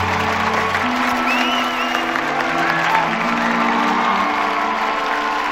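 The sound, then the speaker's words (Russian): Applause from students rising from their benches to clap, a dense, steady wash of many hands that holds at an even loudness throughout. “Рон и Гермиона, а затем и остальные студенты, поднявшись, аплодируют Хагриду”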